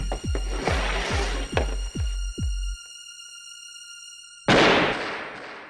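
A pistol shot fired in a game of Russian roulette rings out as one loud, sharp blast that slowly decays. Before it come a series of rhythmic thumps over steady high electronic tones, then a few seconds of silence.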